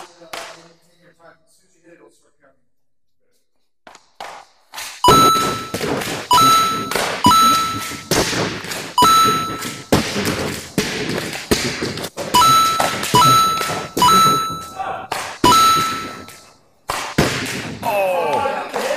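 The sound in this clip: Hockey pucks shot in an off-ice training facility: many sharp, loud cracks and thuds in quick succession, several ringing with a metallic ping. A quiet opening with soft voices comes first.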